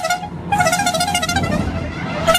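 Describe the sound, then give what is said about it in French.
Small horn on a Tour de France publicity caravan float sounds a loud, sustained tone with rich harmonics. It carries through the whole clip, briefly thinning in the upper range near the start, over a low rumbling background. “c'est surtout le passage de la traditionnelle caravane du Tour de France. Avec en plus le char d'issu et puis ce petit klaxon qu'on adore.”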